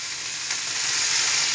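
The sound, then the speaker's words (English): Food sizzles loudly in a pan as red wine is added, a steady dense hiss that holds throughout and flares briefly at the very end. “hear that sizzle there. Bit of red wine.”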